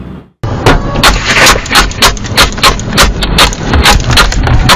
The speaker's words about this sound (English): Nearly a dozen shots fired. It all happened right here on the lanes of I-95.